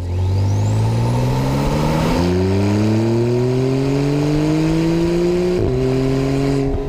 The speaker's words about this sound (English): Here's a Porsche 911 turbo.